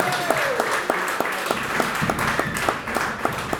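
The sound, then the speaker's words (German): Applause rises after congratulations on a regional American football championship: dense, steady clapping with a few sharper accented claps running throughout. “Ja, da darf man wohl mal applaudieren.”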